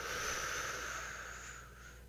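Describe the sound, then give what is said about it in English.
A deep breath drawn in during a breathing exercise: a steady, airy inhale that stays soft and even for its whole length, with no talking over it. “fill your lungs up with air, and then exhale. All right? On the count of three, one, two, three, inhale.”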